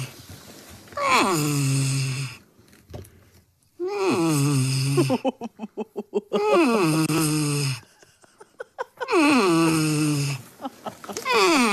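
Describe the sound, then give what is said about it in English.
A porcupine grumbles after being woken early for cage cleaning: four long, moaning, whiny calls, each dipping in pitch at the start, then holding steady. A burst of rapid rattling clicks falls between the second and third calls. “And this is what it sounds like when a porcupine does not want you waking him up early in the morning to clean his cage.”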